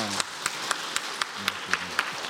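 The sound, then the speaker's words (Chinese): An audience at a church service claps in a steady, even rhythm of sharp, loud claps, about four per second, while a voice continues beneath the beat. “不是说你们的掌声不热烈啊”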